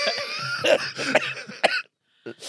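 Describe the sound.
A person coughing in a rough, throaty fit of several harsh bursts close together, then a short silence and one more brief cough.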